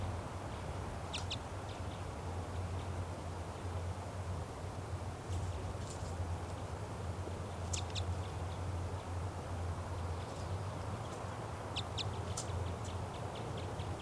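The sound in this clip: A female bird calls from a tall tree beside her nest tree, above a net: short, sharp, high chirps in scattered clusters, repeated several times over a constant low hum and broad background noise.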